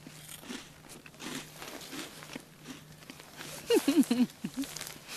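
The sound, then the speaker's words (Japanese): Crunching on Karl corn puff snacks, heard as a brief run of several sharp, crisp bites near the end, louder than the faint steady hum beneath. “カール食っていいのかみんなであのカール食べましょうね”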